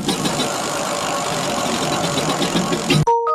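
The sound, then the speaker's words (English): A prize wheel spinning with a steady, dense rattle of rapid clicks that runs without a break, then stops abruptly near the end, followed by a short ringing chime. “Now let's do the wheel spin.”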